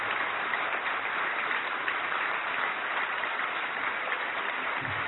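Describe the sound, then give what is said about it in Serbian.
Audience applause honoring a choir collaborator at a church choir event: a dense, continuous patter of many hands, fairly soft and unbroken for about five seconds, with no speech. “jedan aplauz za ovog čovjeka”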